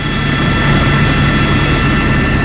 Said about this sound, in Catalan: hi ha un helicòpter del Servei Català de Trànsit que està sobrevolant Barcelona per veure tot el que passa a les carreteres.